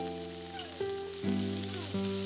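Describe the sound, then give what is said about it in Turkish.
A hamburger patty sizzles in a pan as it is flipped, giving a steady, moderate frying hiss across the short clip. “Bir yüzü pişti şefim. Çeviriyorum.”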